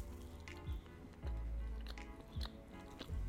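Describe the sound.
Chewing on a warm, microwaved birthday cake cookie: soft, moist biting and mashing sounds that recur in a loose rhythm, faint and close with no talking.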